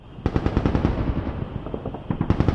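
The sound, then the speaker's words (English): Anti-aircraft guns fire at night in Tripoli in rapid, continuous bursts of sharp reports. A short ease-off comes before another dense volley. “That's the sound of anti-aircraft guns, which, so far as we know, have fired ineffectively at the U.S. and its allies.”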